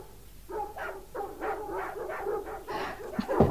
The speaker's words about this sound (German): Die Hunde sollen still sein.